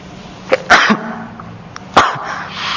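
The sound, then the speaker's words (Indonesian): Sneezing from a presenter during an online Islamic study lesson: a couple of sharp, loud bursts, with a smaller burst before the first, set against a low, steady background hum. “Ana bersin, mandi.”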